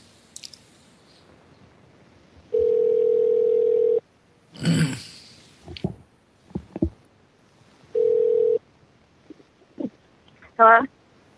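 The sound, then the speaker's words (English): A telephone rings out while dialing a call to a home line: two steady buzzing ringback tones, the first about one and a half seconds and the second about one second, separated by a gap with scattered clicks and rustles. “get her on the line right about now. Well, it should be dialing.”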